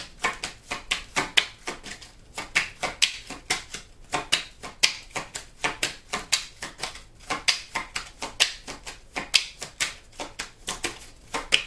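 Tarot cards being shuffled by hand: many crisp, rapid flicking and riffling clicks that come in repeated short bursts, fairly faint and with no talking.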